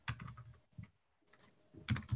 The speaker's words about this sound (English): Yes, I will type it in the chat.